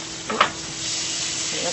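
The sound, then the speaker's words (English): Unsalted butter sizzles in a hot pan, a steady, bright frying hiss with a brief clatter near the start. “into the pan like that, nice and hot, and it'll start to turn straight away, as you can see.”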